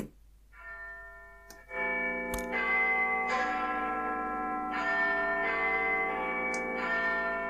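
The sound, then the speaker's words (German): The Big Ben clock tower bell striking: a series of deep, resonant bell strokes whose long ringing tones overlap and sustain between hits, heard alone without voices. “So hört sich unser Big Ben an.”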